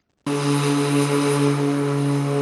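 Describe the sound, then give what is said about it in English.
Droning of a rebuilt DC-3 propeller plane, originally built in 1942 for the Second World War, in flight: a loud, steady engine roar with constant low hums that starts abruptly and holds level throughout. “This rebuilt DC-3 plane, originally constructed in 1942 for the Second World War, now flies missions helping NASA scientists”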